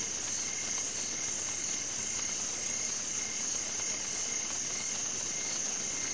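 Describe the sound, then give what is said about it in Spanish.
Crickets chirping on a still, starry night: a steady, high, monotonous trill that repeats evenly and continuously throughout. The trill is fairly soft and heard alone, with no voices or other sounds. “Se escucha el silencio de la noche, solo interrumpido por el monótono y repetitivo canto de los grillos.”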